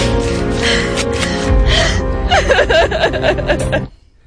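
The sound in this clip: A woman cries in a film scene, sobbing and gasping in wavering, whimpering breaths that grow more broken before cutting off abruptly.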